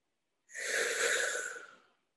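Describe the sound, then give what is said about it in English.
One long, deep breath taken during a guided head- and heart-tapping relaxation exercise, soft and airy, swelling steadily then fading, alone with no talk. “Take a deep breath.”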